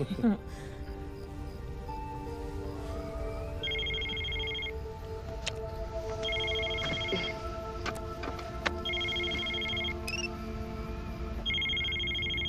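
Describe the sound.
A telephone ringing in four evenly spaced electronic bursts, high and steady in tone, over a dense, continuous background of other sound.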